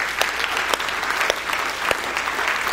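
A church audience in two rooms applauds its worship teams with continuous, even clapping, individual sharp claps standing out throughout.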